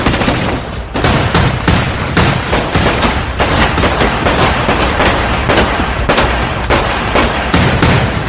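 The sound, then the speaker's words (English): Gunshots ring out in a scene from the film 21 Jump Street: a dense, loud barrage of many rapid shots that runs without pause for the whole stretch. “That was a gun. Somebody definitely got shot.”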